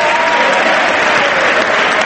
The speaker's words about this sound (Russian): 1 августа она появилась в Палате представителей Конгресса, где ей была устроена громовая овация.